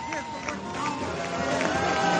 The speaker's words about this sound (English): A rough but astonishing piece of tape. Christopher Hedges addresses a vigorously booing graduating class at Rockford College in Rockford, Illinois.